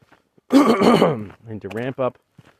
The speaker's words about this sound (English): excuse me, a lot of phlegm moving through today.